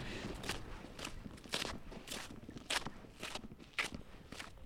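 Footsteps of people walking along Reykjavík streets, Aðalstræti, Vesturgata and Grófin: a faint, steady series of even steps under a soft background hiss.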